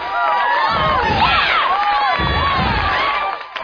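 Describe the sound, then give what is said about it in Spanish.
Loud audience cheering and whooping greets a host arriving for a night-time news show, with high shouts and whoops layered over crowd noise that dips briefly near the end. “queremos dar la bienvenida y un fuerte y caluroso aplauso, damas y caballeros, aquí con ustedes, Alejandro Pavón”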